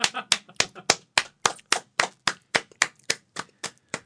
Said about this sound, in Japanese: 鳴りやまない拍手